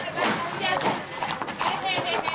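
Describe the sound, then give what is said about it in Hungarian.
Hooves clip-clopping as horses with riders arrive for a weekend gallop race event, a rhythmic run of clops with people talking over them. “folyamatosan érkeznek a lovak és a lovasok a hétvégi vágtára.”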